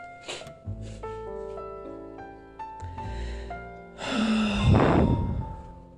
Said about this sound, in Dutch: En doe dit nog eens een keer. Adem in, schouders op.